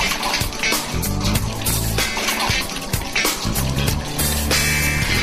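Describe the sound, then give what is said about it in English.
Used deep-fryer grease drains out of the bottom of an outdoor reactor vessel and flows through a pipe and hose, making a continuous rushing, sloshing liquid noise with a busy, fluctuating texture. “Now it's draining out through the bottom. It's going through this pipe right here and up this hose, down through this pipe,”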